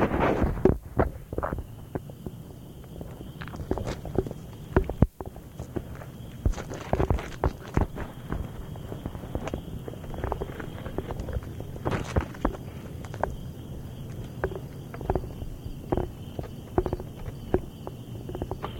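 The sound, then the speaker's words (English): A person climbing a large backyard tree: many irregular scrapes, knocks and rustles continue under light wind noise, with one sharper knock standing out early on. “Now a good 45 or 50 feet in the air, I'm still climbing”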